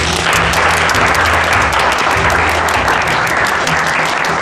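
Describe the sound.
Applause from an audience welcoming a speaker at a student reading-group meeting: dense, steady clapping that holds at an even, loud level through the whole stretch, with no voices over it.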